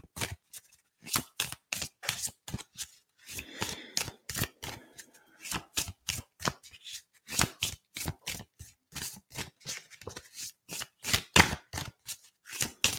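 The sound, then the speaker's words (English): Chakra cards being shuffled by hand, a long run of crisp, rapid riffling bursts with short gaps between them, fairly loud and steady throughout with no talking. “And let's see what chakra card wants to come through.”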